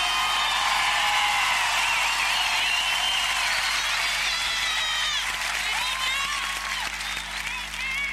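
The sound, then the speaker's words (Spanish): A crowd applauds loudly, with sustained clapping mixed with whistles and whoops that rise and fall over eight seconds, easing slightly toward the end. “¡Los aplausos!”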